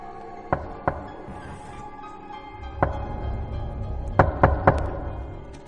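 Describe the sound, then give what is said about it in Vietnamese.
Soft, dry knocks on a door leading out to a porch sound against a low, steady background hum. Two knocks come first, then a single one, then three in quick succession. No one speaks. “Cô lắng tai nghe, có tiếng gì đó là tiếng gõ cửa, khe khẽ.”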